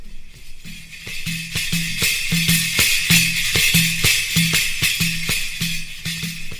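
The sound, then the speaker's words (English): A very large tambourine with cymbals (mazhar) played in a steady, driving rhythm. Deep thumps of the skin repeat beneath a bright, continuous jingling shimmer of cymbals that stays loud throughout. “playing the Mazhar instrument, which is a very large tambourine, and it sounds like this.”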